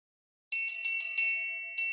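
A bell at the head of a bed rings in quick repeated strikes, bright and metallic with sustained tones, starting abruptly after a moment of silence and briefly easing before another strike.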